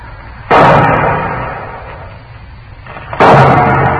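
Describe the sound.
Two loud gunshots fired as a signal for help near a herd of buffalo, each a sudden sharp blast followed by a long rumbling decay, about three seconds apart.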